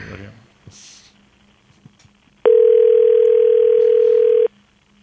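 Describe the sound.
A telephone ringing tone on an outgoing call: one loud, steady, mid-pitched tone lasting about two seconds, preceded by a few faint clicks and soft rustling.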